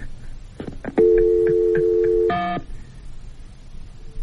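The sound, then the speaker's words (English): A telephone being dialed with touch tones: a few soft clicks, then a steady tone holding for over a second, cut off by one brief, brighter beep. “dial her up”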